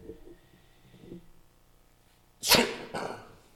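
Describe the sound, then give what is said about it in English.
A sneeze straight into a lapel microphone: one loud, sharp burst of breath and noise follows a quiet stretch, then a second, smaller burst comes just after. “You can't really escape a lapel mic when you sneeze.”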